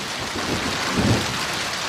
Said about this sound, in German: Es ist kurz nach 10 Uhr, als der Hagelsturm über Bülach zieht.